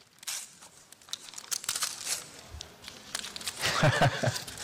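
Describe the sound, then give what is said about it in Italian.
A gift-wrapped book is unwrapped, its paper crinkling and tearing in irregular bursts that grow louder and busier toward the end, with a voice briefly audible near the close. “Esatto, è il libro che ti invito a scartare.”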